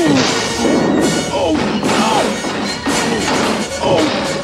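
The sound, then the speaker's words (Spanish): A line of elephants piles into the colonel's rear with loud crashing thumps and whacks over a dense, continuous din. “El coronel se detiene y toda la fila choca contra su culo.”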